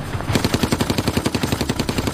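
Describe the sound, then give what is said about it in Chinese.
A machine gun in a tower fires a long, rapid, evenly spaced stream of loud shots that rattles without a pause. “忽然，河对岸塔楼上的机关枪猛烈地扫射起来。”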